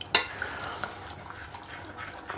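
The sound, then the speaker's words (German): Milk is stirred into a flour-and-fat roux in a pot, making a soft, continuous sloshing and scraping with a light clink near the start, faint throughout. “Dann geben wir noch ein bisschen an Milch dazu und rühren mal schön weiter.”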